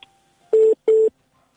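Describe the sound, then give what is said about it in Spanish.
Two short, steady electronic telephone call tones sound alone, each about a fifth of a second long with a brief gap between them, clean and mid-pitched over near silence. “Es que parece que nos están llamando por teléfono.”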